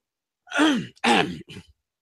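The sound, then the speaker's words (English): Someone clears their throat alone in three short voiced bursts. The first is the strongest and its pitch drops, the second is similar, and the last is quieter and clipped. “Clear the throat.”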